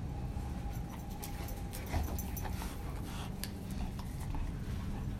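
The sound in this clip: A dog pants steadily with a thin, faint whimper running through the breathing, a continuous rough huffing texture with no barks.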